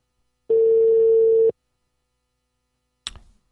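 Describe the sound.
Telephone ringing on an incoming call: one steady, pure electronic tone lasting about a second, then silence and a sharp, brief click.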